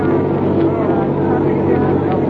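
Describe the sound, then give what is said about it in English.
Steady, loud engine drone of a car on a muddy refugee road at night, a low continuous rumble with a broad hum throughout. “there's a car approaching.”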